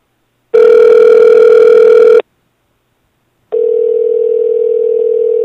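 Telephone tones while placing a call: a loud, steady buzzing tone lasting under two seconds, a pause of about a second, then a second steady tone at the same pitch, slightly softer, with no voices.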